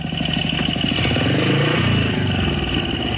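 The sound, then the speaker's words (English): A motorcycle rides slowly off the road across a forest floor beside school grounds. Its engine drones loudly and steadily throughout, with a rough, clattering texture. “The motorcyclist passes through the woods that adjoin the school grounds. He slowly pulls off the road and rides along the forest floor.”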